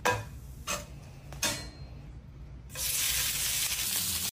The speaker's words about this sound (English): Roast beef seared in the pan. Generously covered with spices.